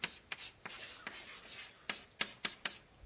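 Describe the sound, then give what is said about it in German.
Writing by hand makes faint, scratchy strokes in an irregular rhythm, with many short marks spaced across the span. “Also, ich schreibe mal hier mal noch ein Ende.”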